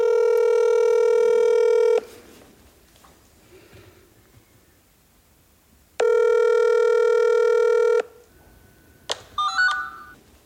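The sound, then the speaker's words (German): A messenger-app call rings out with a phone ringback: two long, steady electronic tones, each about two seconds, separated by a quiet pause, followed by a few brief electronic beeps near the end. “Und dann haben wir genau diese Leute einfach über den Messenger mit einer Dolmetscherin zusammen angerufen.”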